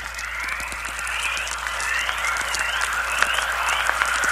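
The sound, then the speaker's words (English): Chorus, a natural radio emission caused by solar particles striking Earth's magnetic field, is heard as many overlapping rising chirps, like birdsong. They sound faintly over a bed of crackling static and sharp clicks. “Particles from the sun are hitting Earth's magnetic field and generating these noises, probably several thousand miles out in space.”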